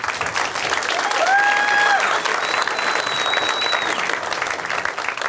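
An audience applauds a comedian at a stand-up show with steady, loud clapping. A few sharp whistles rise above the clapping partway through.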